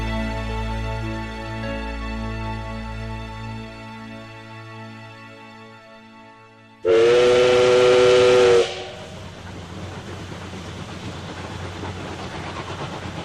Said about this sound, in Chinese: 今天我们又在这个车站上送你去中国了